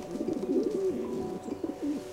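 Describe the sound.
A male pigeon cooing in the city, a soft low rolling coo repeated in several throaty phrases, alone with no talk.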